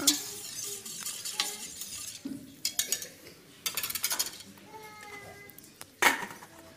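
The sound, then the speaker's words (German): Salted water being stirred in a cooking pot: irregular metallic clinks and scrapes of a utensil against the pot, many small knocks with a few sharper clanks, one loud hit near the end. “damit es schneller kocht, tun wir gleich Salz rein. Dann das dann umrühren.”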